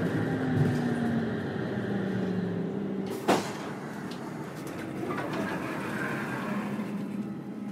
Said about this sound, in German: Denn ich fahre mit einem Oberleitungsbus und davon gibt es in Deutschland nur ganz wenige, in Russland dagegen sehr viele.